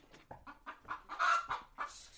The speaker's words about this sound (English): with a few chickens running around and making a racket